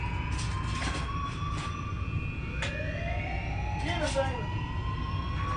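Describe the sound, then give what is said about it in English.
A siren wails faintly over a steady low rumble, its tones sweeping and sliding upward in pitch a couple of times as the wail rises and overlaps. “Somebody turn that damn siren off.”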